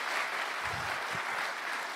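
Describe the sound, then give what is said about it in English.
A religious audience claps to welcome back a youth mission team, a steady, dense wash of many hands applauding at even loudness throughout, with no voices over it. “Can we just give them a clap?”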